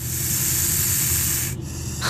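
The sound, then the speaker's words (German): A snake hisses in a steady, loud, breathy rush that holds for about a second and a half, breaks off briefly, then starts again near the end. “Was soll das? Wieso faucht mich deine Schlange an?”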